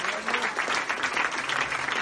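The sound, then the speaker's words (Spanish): A church audience applauds, a dense, steady clatter of many hands that stays at an even level from start to finish. “Ese aplauso de victoria al Dios nuestro. Amén. Aleluya.”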